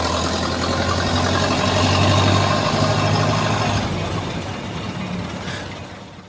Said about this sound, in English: it sounded like a Model A there. That's exactly what the sound effect was.